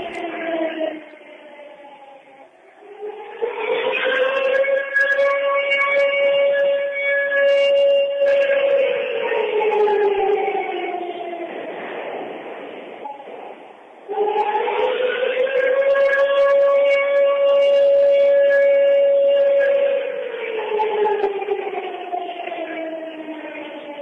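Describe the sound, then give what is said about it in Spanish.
Memorial siren sounding at a commemoration ceremony: a loud wail that rises, holds steady for several seconds, then sinks. It repeats in two long cycles. “Escuchamos la sirena que recuerda las 9:53 del 18 de julio del 94.”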